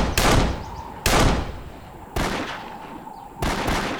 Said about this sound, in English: The man on the rock pointed his pistol into the air.